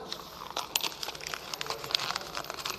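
A sheet of paper is crumpled by hand, producing quiet, irregular crackling and crinkling with many small sharp snaps over a couple of seconds.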